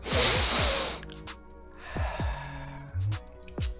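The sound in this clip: A loud, rushing breath drawn in through the mouth lasts about a second, then gives way to quieter, scattered sounds.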